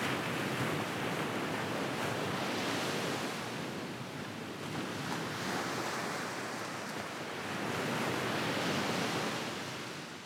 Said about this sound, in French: on entendit dehors le bruit gémissant de la brise et de la mer.